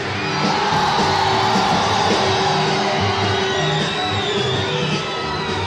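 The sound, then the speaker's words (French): Concert audience at a live summer tour show shouting and cheering: a dense, continuous roar of many voices, loud and unbroken for the whole stretch. “Une fois, je veux vous entendre crier.”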